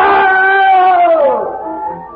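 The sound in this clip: A voice acts out a terrible, drawn-out scream in a 1947 radio horror drama: one loud, strained cry that holds steady, then slides down in pitch and fades.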